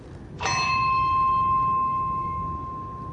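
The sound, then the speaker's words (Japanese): A small bell on a hill is struck once and rings out a single clear note. The tone sustains and slowly fades without other sounds. “普通、まあ、ベルってもうちょっと大きかったらねボワーンと響くんですけどね、はい、やっぱりちょっと小さいなというようなことなんですが”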